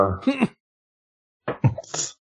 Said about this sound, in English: Sneeze, sorry. Hold on. Sneeze attack.